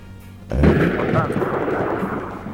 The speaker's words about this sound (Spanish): ¿Escuchás? Sí. Es una bomba.